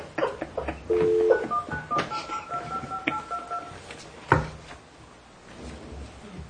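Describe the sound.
Touch-tone telephone being dialed: a few steady beeping keypad tones mixed with clicks and taps of handling, followed by a sharp thud, with no talk.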